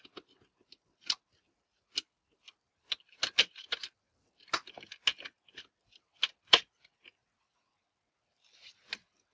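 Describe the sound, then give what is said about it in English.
Small screws are fiddled with at the power cable connector of a circuit board, giving many faint, sharp metallic clicks and ticks in an irregular rhythm, some bunched close together, with quiet gaps between. “Fiddling with the screws.”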